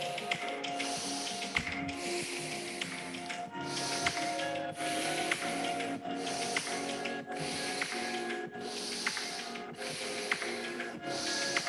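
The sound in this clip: Rhythmic breathing through the left nostril only, steady and even, with the final exhale pushed harder. Many soft, airy nasal breaths repeat at a quick, regular pace over a constant tonal backdrop.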